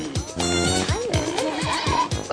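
Pig grunts and squeals in a string of short, fairly loud calls, most of them sliding down in pitch.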